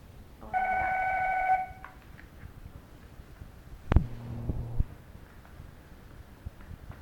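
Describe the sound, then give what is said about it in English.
A telephone briefly interrupts with a steady electronic tone lasting about a second, followed later by a sharp click and a short low buzz. “All right, that was the phone that interrupted us.”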